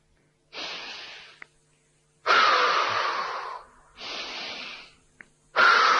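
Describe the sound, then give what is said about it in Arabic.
Deep breathing exercise with slow, airy inhales and exhales: four long breath sounds alternate with short silent pauses where the breath is held, moderately loud and with no talking. “بتاخد شهيق في 4 بتحافظ عليها في 2 بتطلع زفير في 4.”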